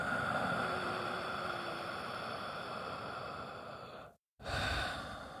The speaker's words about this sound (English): place both of your hands as you're sitting down on your stomach and breathe so that your stomach contracts and gets as large as it can